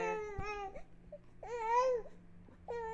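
A baby fusses after dropping her pacifier, letting out short, whiny, wavering cries in a few separate bursts with quiet gaps between them.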